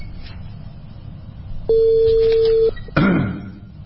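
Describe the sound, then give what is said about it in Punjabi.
A telephone call being dialled, heard as a single steady tone lasting about a second, followed by a brief noisy burst. “ਮੈਂ ਇਹਨਾਂ ਨੂੰ ਕਾਲ ਕਰ ਦਿੱਤੀ ਹੈ।”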